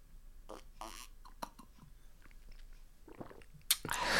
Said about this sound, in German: Ich versuche jetzt nochmal zu trinken. Einen Moment bitte.